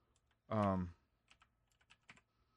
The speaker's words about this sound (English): I don't have many scriptures or anything in front of me, but I'm going to type it in